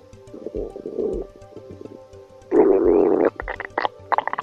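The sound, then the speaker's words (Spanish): A hungry stomach rumbles in a run of gurgling growls. Two softer bubbling rumbles come first, then a loud, sustained watery gurgle, and the sequence ends with several short, bubbly pops. “¿Qué vergüenza se pasa cuando estamos en un lugar silencioso y rodeado de gente y de repente nuestro estómago empieza a rugir?”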